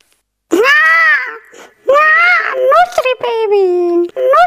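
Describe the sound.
A wailing, crying voice in an infant milk advert, a few long, drawn-out cries with strong pitched tone, loud and alone.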